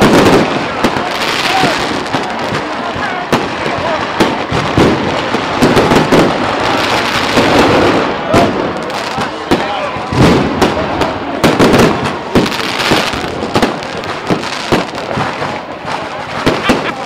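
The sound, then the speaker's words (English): Fireworks going off all around, a dense, loud, continuous barrage of crackling and booming bursts that never lets up across the whole stretch. “And we have fireworks going off all around us. The sky is simply lit up with all sorts of spectacular colors, and of course the ground is lit up with all sorts of sounds.”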